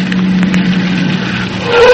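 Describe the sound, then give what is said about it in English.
A car engine drones steadily at a low pitch as the vehicle pulls up and stops, its tone shifting toward the end of the short clip. “All right, stop the car. Stop the car, I said.”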